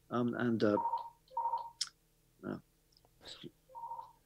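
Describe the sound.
A phone rings during a live conversation, giving a few short, steady electronic tones at a moderate pitch that sit between and under people talking.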